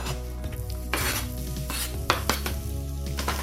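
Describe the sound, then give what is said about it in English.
Onion frying in a pan, a steady sizzle broken by stirring scrapes and a few light utensil knocks, with no voices. “So yeah, this is a great base to the dish, and a lot of the flavour is coming from the onion. So we're just going to sort of fry it for a little bit.”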